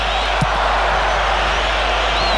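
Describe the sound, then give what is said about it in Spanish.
A stadium crowd cheers for the Paraguay national football team during a match, a dense, continuous roar of many voices that stays loud and even throughout. “Hacia atrás enciso el público que empieza a alentar a la albirroja.”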